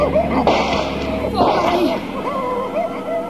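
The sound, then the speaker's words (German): Gunshots fired in a German radio drama, two sharp bangs about a second apart standing out over a busy background. “Schießen Sie, Doktor! Schießen Sie doch!”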